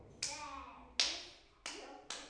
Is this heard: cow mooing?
no